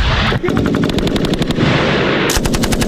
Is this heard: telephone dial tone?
no